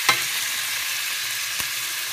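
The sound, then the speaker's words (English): Meat searing in a hot pan: a steady, bright sizzle throughout, broken by two brief utensil clicks, one at the start and one later. “this is what I like to hear, the sear”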